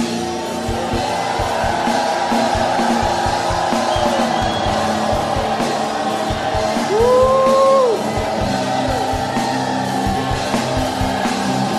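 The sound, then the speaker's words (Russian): An audience at a church service shouts praise in a loud, continuous crowd roar, with yells and whoops rising out of it throughout. “Give Him a shout of praise.”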